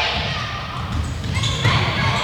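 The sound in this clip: A basketball bounces on a court during a game, giving muffled thuds beneath people talking over the action.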